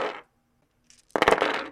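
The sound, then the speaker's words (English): Dice rolling: a couple of small sharp clicks, then a dense, bright clatter of many quick rattling hits that continues to the end. “As you may have guessed from the sounds you are hearing, and possibly by the title of the episode, that we are doing chance operations with dice”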